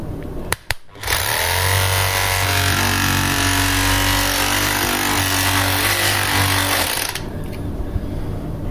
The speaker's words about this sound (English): Going to line my knife up right against the fork and I'm going to turn it on and I'm just going to let the machine take it down. I'm going to apply minimal pressure, not much at all.